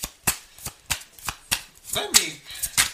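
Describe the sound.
Tarot cards are shuffled in a series of crisp, snappy bursts that come at a fairly regular pace. A voice cuts in briefly near the end amid the shuffling.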